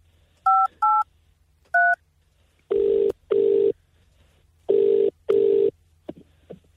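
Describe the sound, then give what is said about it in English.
Telephone dialing tones as a call is placed: three short two-tone beeps, then longer, lower ringing tones in two pairs, each fairly loud and steady with brief gaps, ending in a few faint clicks. “Okay, so we're just going to dial her now. Hopefully she answers.”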